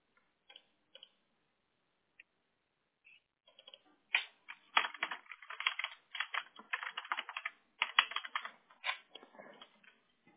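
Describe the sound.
Computer keyboard keys clatter while text is being deleted. A few scattered keystrokes come first, then a dense, fast run of clicks and taps with no voices.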